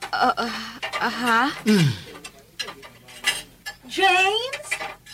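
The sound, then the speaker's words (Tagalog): Dishes and cutlery clink as food is served onto a plate, a light clatter of crockery mixed with a person talking over it. “Butangan akong pagkaon ang imong plato”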